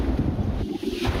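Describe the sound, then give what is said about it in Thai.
Strong wind and waves at a flooded dam in the rain: loud, steady wind buffeting and rushing water noise that runs through the whole moment with no break. “ฝนก็ตกแล้วคลื่นลมแรงด้วยซัดครับพังหมดนะครับมีอะไรแย่กว่านี้อีกไหมดูคลื่นนะครับ”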